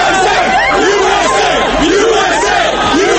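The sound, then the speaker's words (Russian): Thousands of people cheer in the streets of Washington and New York, celebrating news of Osama bin Laden's death: a dense, loud, continuous mass of yelling and shouting voices that never lets up. “В Вашингтоне и Нью-Йорке тысячи людей вышли на улицы, приветствуя сообщение о его уничтожении.”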